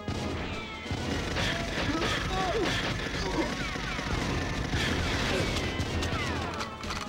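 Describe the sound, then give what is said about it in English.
Gunfire and impacts from the video game GoldenEye form a busy, continuous clatter of sharp bangs and hits, with players talking over the game sounds. “I was shooting you.”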